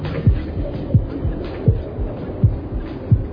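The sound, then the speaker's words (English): A heartbeat thumps low and steady in a quick, even rhythm. There are five strong beats, each followed by a softer second beat. “Heartbeat. Man, that's what it's supposed to do. No, my shit beat too fast.”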